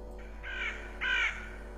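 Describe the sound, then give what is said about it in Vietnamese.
A black crow on a rooftop gives two harsh, rasping caws, evenly spaced and fairly faint, over a steady low hum. “thì đột nhiên ở trên mái nhà, có một con quạ đen. Nó kêu lên những tiếng ghê rợn, rồi nó bay vút lên trên bầu trời.”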